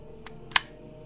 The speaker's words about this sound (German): Schau an. Ich habe es doch geahnt. Hier ist ein kleiner Hebel.